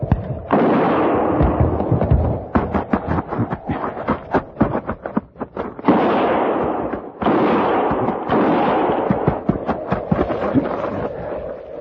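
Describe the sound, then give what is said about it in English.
Gunfire bursts out in a long, dense volley, with many overlapping loud shots and booms cracking in rapid, irregular succession throughout, and no talking over it. “Start firing.”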